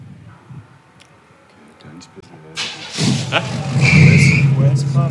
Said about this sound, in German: Trotzdem ein wunderschönes Fahrzeug, super toller Zustand und fahr halt mal ein Stückchen vor und lass mal hören, was der für einen Sound hat.